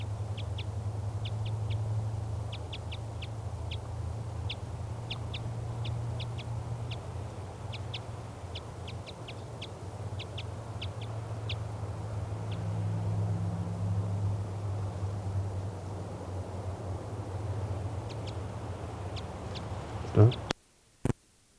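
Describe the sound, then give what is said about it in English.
A female bird calls from a spruce tree across a clearing, giving many short, high, thin notes in an even series over a low continuous rumble. The calls stop partway through. “Recording the female flew across the clearing to a spruce tree. This is her calling.”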